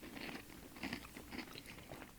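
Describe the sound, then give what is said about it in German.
Quiet biting and crunchy chewing of food by two people with full mouths, heard as a few soft, rhythmic munching bursts spaced about half a second apart. “So, jetzt haben wir beide den Mund voll, ne?”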